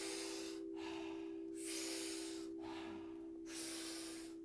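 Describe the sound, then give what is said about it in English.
Powerful rhythmic breathing through the mouth, big inhales alternating with soft exhales, in a group breathwork exercise. Three strong, airy rushes of breath alternate with quieter stretches over a steady low tone. “What we're going to be doing is 30 to 40 powerful breaths into the body through the mouth. The exhale is a soft exhale. We do it rhythmically. We do it together. It sounds like this.”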